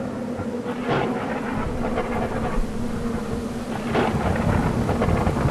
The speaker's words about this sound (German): der Sturm ist schon schlimm genug